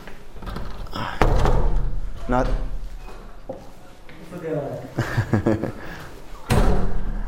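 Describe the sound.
A door being pushed shut lands with a heavy thud, followed later by a second solid thump, with a voice talking in between.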